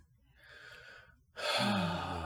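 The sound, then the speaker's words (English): Deep breaths: a slow, breathy inhale, then a louder, longer sighing exhale. There is no talk over them. “A few deep breaths. A few deep breaths.”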